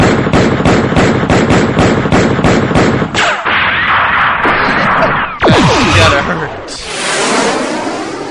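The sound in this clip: Grenade and missile explosions in a violent action scene: a rapid string of about a dozen loud, sharp blasts, then heavier roaring bursts and a rushing, crackling tail, all loud and dense.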